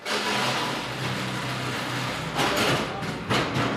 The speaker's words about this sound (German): Wir hören eine riesige Halle von Daxa,